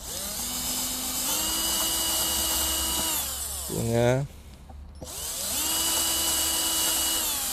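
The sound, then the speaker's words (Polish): An electric drill whines steadily as it bores through a board. Its motor winds down in pitch to a stop, then starts up again and runs on at a high, even pitch. “Tu chyba niestety przewierciłem na wylot.”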